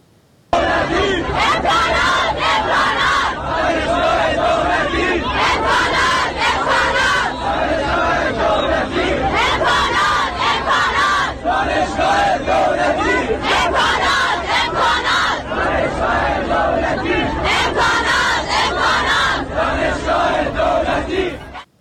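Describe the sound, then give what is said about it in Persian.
Students chant together at a protest over a lack of facilities at Hormozgan State University. The massed voices are loud and sustained for the whole stretch, with rhythmic shouted bursts over constant crowd noise. “در این هفته شماری از دانشجویان دانشگاه دولتی هرمزگان در اعتراض به کمبود امکانات دست به تجمع زدن.”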